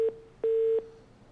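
A telephone line tone after a call-in caller's call drops: a clipped beep, then a longer beep of the same steady mid-low pitch, heard alone.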